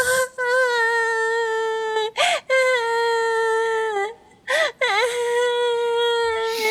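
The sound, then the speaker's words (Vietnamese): A child cries loudly in long, high, sustained wails, each held for a second or more and broken by brief catches of breath. “Con đừng khóc nữa mà”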